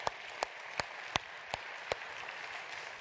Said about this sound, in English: Why don't we put our hands together real quick and welcome everybody that's new with us at the Bridge today.